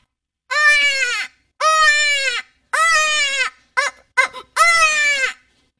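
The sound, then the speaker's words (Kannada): A human voice imitates a goat bleating, giving several wavering, nasal bleats. Three long calls come first, then two very short ones and a final long bleat, with brief pauses between them. “ಮೇಕೆ ಕೂಗುವುದು.”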